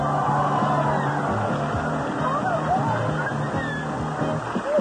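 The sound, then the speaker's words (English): Water sloshing and churning in a Hawkeye swim spa, a loud, steady wash that holds without a break from start to finish. “What do we have back there? A new spa!”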